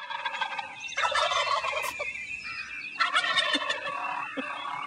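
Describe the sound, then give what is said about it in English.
Turkey gobble sound effect played from a hotkey: two loud, rapid, warbling gobble bursts, the second starting about two seconds after the first. “Gobble and the hotkeys over here. You got Gobble and the hotkeys? I do. Is it a gobble sound? It's a gobble sound. Well, we better play it.”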